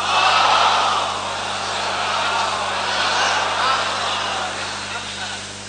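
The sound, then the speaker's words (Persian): An audience chants the salawat blessing in unison at a religious gathering, a loud, sustained swell of many voices that rises and ebbs before easing off at the end. “صلواتی مرحمت کنید.”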